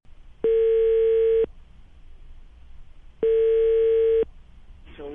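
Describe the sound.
Telephone line tone as a call is placed: two steady, single-pitched beeps, each about a second long, separated by a longer silence over faint background noise.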